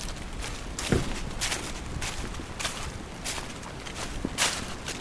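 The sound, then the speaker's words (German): Footsteps tread over rocky ground on the climb to a rocky summit during a rain shower. Steady crunching steps sit under a constant rushing hiss, with a few sharper knocks standing out along the way. “Wir marschieren jetzt auf den Kopf, auf den Felskopf.”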